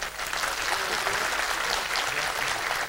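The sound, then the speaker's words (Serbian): Audience applause for competition performers after their numbers, a dense, steady wash of clapping that holds at an even level throughout. “Iza nas su prve tri takmičarske numere. Pozdravimo ih još jednim aplauzom.”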